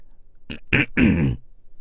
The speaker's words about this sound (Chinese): 魏琛被眼神攻击到了，咳嗽了一声，凑了过来。